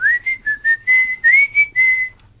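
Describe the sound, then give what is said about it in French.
A person whistles a family's signature call, a short tune of several quick, clear notes at a fairly steady high pitch, loud and alone with no other sound. “dans ma famille, on a un sifflet familial. Voilà, c'est ça. Je vous ai dit que je sifflerais à la radio, je vais vous le faire.”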